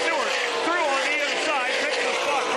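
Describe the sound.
Stock car engines roar at the 2004 Ford 400 NASCAR race, a loud, continuous high-pitched drone with several overlapping engine tones wavering up and down as cars race together.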